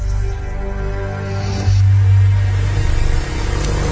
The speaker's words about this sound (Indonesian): aku pun memanaskan motorku sebentar sebelum melanjutkan untuk pulang.